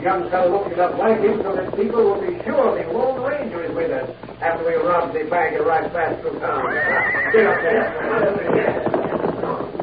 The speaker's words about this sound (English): Sounds like several horsemen moving toward town